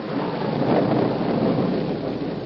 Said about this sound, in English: Boulder Creek was a raging torrent, and lightning forked down from low-hanging clouds with a resounding crash that made the roan horse whinny with fear.